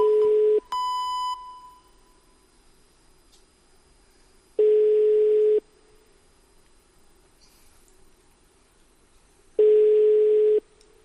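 An unanswered telephone call rings out: three identical steady low-pitched ringing tones, each about a second long, separated by long silent gaps, with a brief higher beep just after the first.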